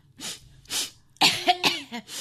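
A woman coughing. Two separate dry coughs are followed by a quick cluster of harsher, rapid coughs, loud and with no speech around them.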